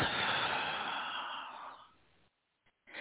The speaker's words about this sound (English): And we're going to take one more deep breath in and hold and release.